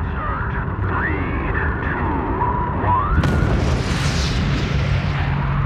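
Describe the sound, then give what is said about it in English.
A rocket launch as its solid rocket motors ignite: a low, rumbling roar suddenly swells into a loud, broad, crackling blast of thrust partway through and keeps roaring to the end. “When the solid rocket motors light, 7 million pounds of thrust absolutely gets your attention.”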